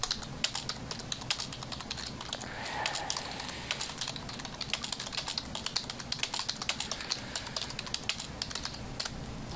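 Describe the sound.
Rapid, steady typing on a computer keyboard fills the whole stretch: many crisp keystrokes in a fast, uneven rhythm, with no voices over them.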